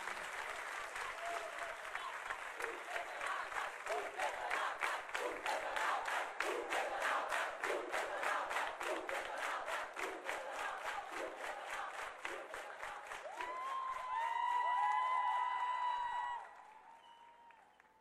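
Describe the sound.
Audience applause at a live show, loud and sustained, with clapping falling into a steady rhythmic beat; near the end cheering voices swell above the clapping before the sound drops away.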